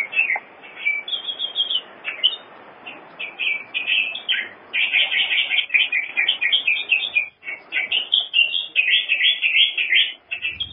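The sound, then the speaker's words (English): Calls of the Nauruan canary, a songbird of Nauru, form a long run of bright, high chirps and short warbled phrases that repeat in quick bursts over a faint hiss, with no talking. “This is the call of the Nauruan canary opening this morning's transmission on FM 105.”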